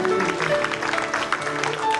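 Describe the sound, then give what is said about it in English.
An audience claps during morning worship, brisk, overlapping handclaps layered over sustained musical tones, moderately loud and continuous. “Let's give God a clap offering this morning as we just worship him.”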